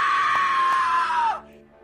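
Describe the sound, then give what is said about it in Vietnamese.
A terrified, shrill scream for help at night rings out as one long, sustained high cry that holds steady, then drops in pitch and cuts off abruptly, leaving near silence. “Nhân và ông Đại nghe thấy tiếng hoảng sợ kêu gào, âm thanh the thé như cầu cứu vang lên giữa đêm khuya”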